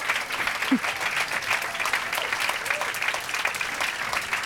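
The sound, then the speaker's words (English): Audience applause welcomes Jon Hamm onto the stage: steady, dense clapping that holds at an even level throughout the few seconds. “Please put your hands together for John Hamm. Come on down. Here he is.”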